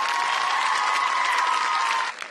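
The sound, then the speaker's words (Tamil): Applause from an audience cheering the winners of a Tamil radio competition: dense, steady clapping with a sustained high tone running through it, cutting off abruptly near the end. “இந்தாங்க இந்த மூணு பேருக்கும் புடிங்க பலத்த கைத்தட்டலை.”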